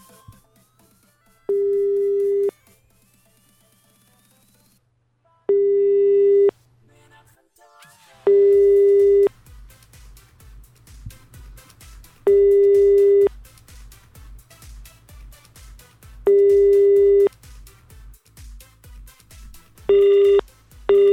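Ringback tones of an outgoing phone call that goes unanswered. Steady, loud tones, each roughly a second long, repeat several times with pauses of a few seconds between them over a faint low hum.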